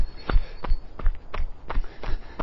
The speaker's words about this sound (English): oh, a bit of an icy patch here, jogging down the hill towards Clayden Boys Golf Club, it's really quite icy.